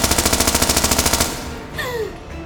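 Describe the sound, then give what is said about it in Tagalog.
Machine-gun fire aimed at someone in a comedic drama scene: a rapid, evenly spaced burst of many sharp shots that lasts about a second, then stops abruptly as quieter sounds follow. “Binaril niyo ako!”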